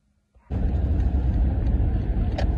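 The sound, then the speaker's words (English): Steady low rumble of a car being driven, heard from inside, starting abruptly after a near-silent moment and then holding level and constant to the end. “I'm driving. I'm not texting. I'm driving.”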